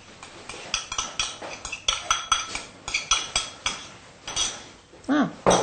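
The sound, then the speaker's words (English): Melted butter being stirred into a soda bread dough mixture in a bowl. Many quick, regular clinks and scrapes of a utensil against the bowl repeat in a steady rhythm, with no voices over them. “You just give it a light stir just to disperse the butter.”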